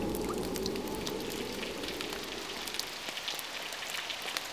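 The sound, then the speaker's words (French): Rain with wind, a dense steady hiss of drops pattering on a surface with scattered sharper taps, continuous and fairly even throughout, with no voices. “Quand j'entends le vent et la pluie,”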